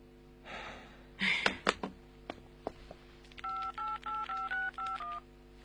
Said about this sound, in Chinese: 3分钟之内已经有人第二次挂断电话了。